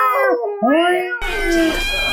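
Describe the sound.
A voice imitates a cat in a basket, giving a few drawn-out, wavering meow-like calls with sliding pitch, the last one rougher and noisier, with no other sounds around them.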